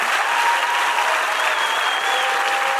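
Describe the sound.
Applause from an audience at a stage event, giving it up for a group of speakers as they leave, a loud, dense and unbroken wash of clapping.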